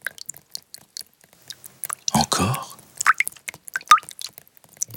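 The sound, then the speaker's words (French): Drips and small wet plops of rain, puddles and an animal's paws splashing, scattered as light irregular taps, with one broader, louder splash in the middle and a few sharper drips toward the end. “La pluie, les flaques, ses pattes. Oh, tout fait du bruit.”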